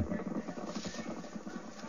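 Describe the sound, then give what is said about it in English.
Horses gallop in a race with a rapid, rolling drum of hoofbeats. The thuds come in quick rhythmic pulses over a dense, noisy background. “Now that's a horse race.”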